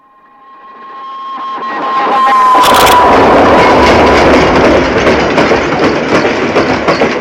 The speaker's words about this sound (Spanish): Escucha esperanzado el sonido del tren.